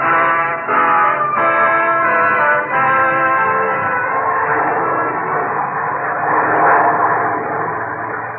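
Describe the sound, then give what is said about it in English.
Wartime warplanes fly across the Pacific toward Australia carrying men and materiel, producing a steady droning engine tone with strong sustained harmonics. The drone continues without a break in a muffled, narrow-band old recording. “Across the Pacific, aircraft are winging toward Australia, mighty bulwark of the United Nations. Warplanes carrying men and material to this new nation”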